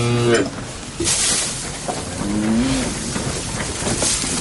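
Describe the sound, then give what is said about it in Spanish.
Cattle low in a barn as they feed at a trough, with one moo clipped at the start and a second, longer one midway, both over a steady rustling background noise. “El granjero atiende a las reses en un establo.”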